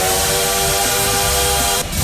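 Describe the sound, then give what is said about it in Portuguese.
A train steam whistle plays as a sound effect for a bullet train: a loud, sustained, harmonic tone laced with hiss that cuts off abruptly near the end. “olha o trem bala aí, ó.”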